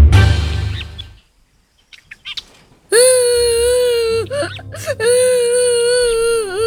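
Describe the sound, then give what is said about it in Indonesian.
A child cries in high, wavering wails, heard in two long stretches separated by a short catch. A brief quieter, broken start comes before the loud sobbing. “Loh, Nak? Kenapa kamu menangis?”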